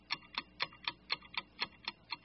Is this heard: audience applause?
no